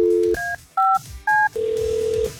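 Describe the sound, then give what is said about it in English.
Telephone dialing for an outgoing call: a short low dial tone, then three separate two-note keypad beeps, and finally one long steady tone. The tones are loud and clean, with no voices. “We got a very important phone call we got to make here. Check this out.”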